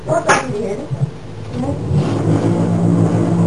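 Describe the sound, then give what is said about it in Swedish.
A running washing machine gives a steady mechanical rumble and whirring that grows gradually louder and denser, with people talking over it. “Det är en jävla vaskemaskin som går. Ja, men det är en vaskemaskin som går.”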